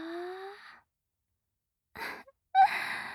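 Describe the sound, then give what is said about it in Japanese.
A soft, breathy yawn with a faint voiced tone that rises slightly and fades, followed after a quiet pause by two brief breathy exhales. “あくび可愛らしいです。”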